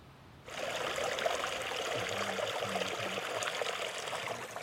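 A steady trickling stream of running water. The even, continuous rush starts abruptly after a brief quieter moment at the start and then holds at a constant level to the end.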